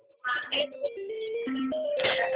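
Telephone hold music on a phone call: a thin, band-limited synthesized melody of stepping tones starts after a brief quiet moment and plays steadily to the end.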